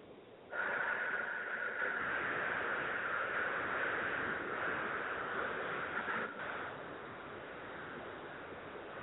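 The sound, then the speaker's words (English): Slow, deep breathing during a mindfulness exercise: a long, steady, airy rush of breath that starts abruptly and holds for several seconds, then eases slightly. It is quiet, with no talk. “Breathe in.”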